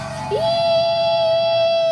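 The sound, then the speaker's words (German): A boy screams in his sleep while sitting up in bed: a loud, sustained high cry that rises sharply at the start, then holds a steady pitch for well over a second. “Der Bub schreit. Während er schläft, sitzt er aufrecht im Bett.”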